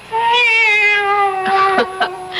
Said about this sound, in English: It's the cat. She's back.